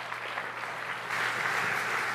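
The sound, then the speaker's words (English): Soft applause from a church audience welcoming a preacher to the front, a faint, even patter of clapping that grows slightly louder midway. “it's nice when you clap at the beginning”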